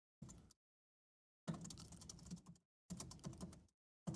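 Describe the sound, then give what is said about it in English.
Computer keyboard typing comes in three short bursts of fast, clicky keystrokes separated by pauses, and a fourth burst begins just as the sound cuts off. “I'm gonna type some stuff in here.”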